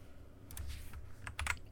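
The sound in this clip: Someone types a chat message on a computer keyboard: a few soft, quick key clicks in scattered bursts, faint over a low background hum.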